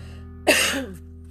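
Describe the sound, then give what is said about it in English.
One brief throat-clearing cough from a tickle in the throat, a short sharp burst that drops off quickly against a steady low hum. “And I have a tickle in my throat, excuse me.”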